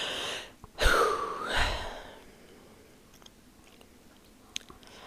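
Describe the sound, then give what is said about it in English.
A deep breath is drawn in and then let out, a clear, breathy rush of air that stands alone and is followed by quiet. “Let me take a deep breath again.”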